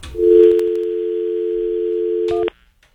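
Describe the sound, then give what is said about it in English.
A telephone dial tone for an outgoing call holds steady and loud for over two seconds. A brief burst of clicks and a short higher tone come just before it cuts off. “make a phone call here. Hang on.”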